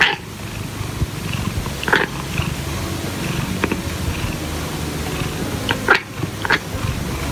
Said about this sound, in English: But possibly the strangest of these vocalizations is what's known as chattering. This involves small, rapid movements in the cat's jaws, emitting sounds like this.